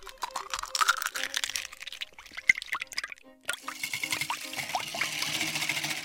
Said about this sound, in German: Wenn du eine cremige Nachspeise machen willst, dann würde ich jetzt zum Beispiel Sahne nehmen und ein paar Eier und Zucker. In und Ordnung, dann, dann tu mal alles da rein. Da, da in die Schüssel. Und dann rühren.